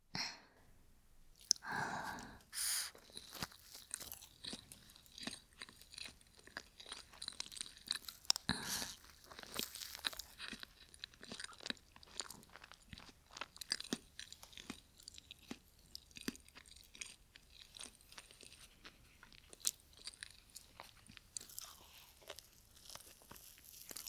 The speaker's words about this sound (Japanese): テチの後だからいつもより甘く感じるかも。ちょっと塩入ってるスイーツも美味しいよね。